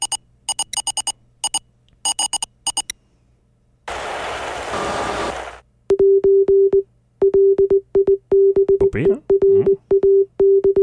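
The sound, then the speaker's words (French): Morse code message as heard over radio: a steady mid-pitched tone keyed in many short and long beeps, preceded by grouped bursts of sharp clicks and a stretch of hiss. “Donc, si vous voulez bien, on va entendre ce message Morse.”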